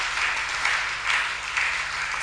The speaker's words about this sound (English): Today, clap with me. You are fellowshipping with us. Yes, so clap.